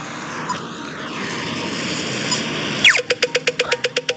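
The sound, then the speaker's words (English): A voice imitates an Irish pedestrian crosswalk signal for visually impaired people: a quick descending sweep, then a rapid run of clipped, evenly spaced beeping pulses, following a stretch of steady droning noise. “started making the sound of the crosswalks in Ireland. They make a sound, I guess, for people, visually impaired people. They sound like this.”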